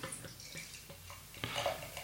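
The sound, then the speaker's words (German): A drink poured into a glass until foam forms, heard as quiet splashing and dripping with faint clinks, growing briefly louder near the end. “Du schenkst das so schön ein, dass ich das nicht sehe.”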